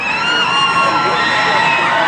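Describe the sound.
Passengers of the Carnival cruise ship Triumph, stranded and disabled in the Caribbean for five days, cheer loudly on arriving back in port, a continuous crowd roar full of whoops and high shouts.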